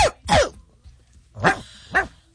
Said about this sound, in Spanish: Este perro estaba como raro, ¿verdad? Raro, sí, estuvo raro. Creo que le están pisando la pata.